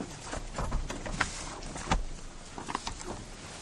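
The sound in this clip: Opening a book, a volume of the Holy Zohar: faint, irregular rustling and soft handling thumps, with a few sharper clicks scattered through.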